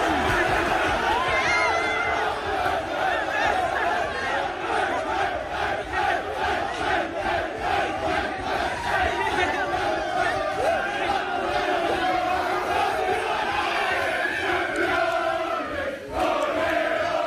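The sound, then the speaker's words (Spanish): Arsenal football players celebrate a title win with loud group chanting. Many voices chant a fast, steady, pulsing rhythm with overlapping shouts throughout. “era el sonido seguido del Arsenal celebrándolo. Es un minuto más o menos. Mira, escucha. Terminaban con el campeones.”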